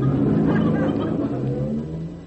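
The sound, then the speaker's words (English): A bus drives off with a continuous low engine rumble and a throaty roar that holds steady, then eases slightly toward the end. “Uh-oh, there's a bus. Hey, wait! Wait for me!”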